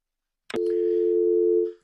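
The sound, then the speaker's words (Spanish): A phone tone marks a dropped call: a short click, then one steady, clear electronic tone that holds for about a second before cutting off. “Y se cayó la llamada.”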